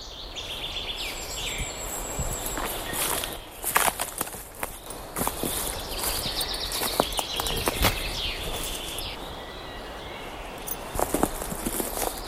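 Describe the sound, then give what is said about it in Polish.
Footsteps walk through Białowieża Forest, with faint, scattered bird chirps above a soft, steady background noise. The steps come as irregular, fairly quiet crunches, with a few sharper ones in the middle. “Kroki, ptaki, wiatr smaga nam poliki.”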